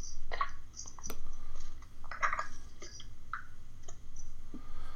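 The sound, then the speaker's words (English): Computer mouse clicks: a few sharp, separate ticks spaced irregularly over a steady low background hum. “You got to click on it.”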